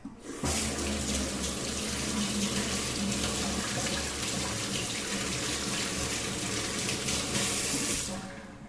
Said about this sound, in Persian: من اینجا 2 دونه گوجه آوردم، اینا رو میشورم.